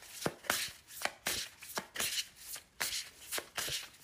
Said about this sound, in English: Okay, I just pulled some cards from the Muse Tarot.